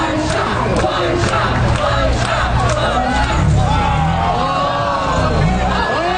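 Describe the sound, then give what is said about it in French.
Crowd of hundreds of spectators roars at a first-ever street competition between 15 competitors in Philadelphia, a dense, continuous wall of shouting, whoops and babble that stays loud throughout. “on entend quoi? Le son d'une compétition inédite. On est à Philadelphie. Eh oui, pour la première fois samedi dernier, 15 concurrents se sont affrontés dans les rues de Philadelphie devant des centaines de spectateurs”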